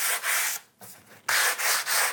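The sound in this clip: Sandpaper rubs over a wooden surface in several rhythmic back-and-forth strokes with a harsh, hissing scrape and brief pauses between them.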